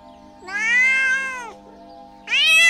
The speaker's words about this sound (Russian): А кошка рыжая тут как тут.